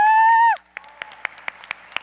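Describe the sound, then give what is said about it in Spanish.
A sustained, steady tone gives way to audience clapping at a business presentation: six crisp, evenly spaced claps in a steady rhythm over quiet background. “Un aplauso, por favor.”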